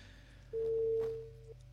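A single steady mid-pitched telephone line tone sounds for about a second while a call is being placed, clear above a faint background hum.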